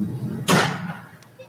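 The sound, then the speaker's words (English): A single hard slam hits with a sharp, loud, broad crack that fades over about half a second, followed by faint low background noise and a soft knock near the end. “It slammed, like... Okay. Yeah, it slammed hard.”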